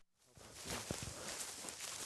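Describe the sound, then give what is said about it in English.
Footsteps of a man walking through the South Dakota Badlands, a few soft, crunching steps near the start that give way to a steady background hiss. “walks through the Badlands, he keeps an eye out for one thing.”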